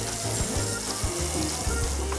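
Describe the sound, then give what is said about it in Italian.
Porcini mushrooms sizzle as they brown in lightly salted oil in a pan, giving a dense, continuous hiss with low bubbling crackles that stays even throughout. “Guardate, la rosolatura del, del porcino che prende colore”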